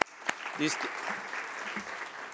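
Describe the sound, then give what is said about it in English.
Audience applause at a conference session on sustainable energy, a steady patter of clapping that follows a faint sharp tap and lasts throughout at low level. “Please, a warm applause for our”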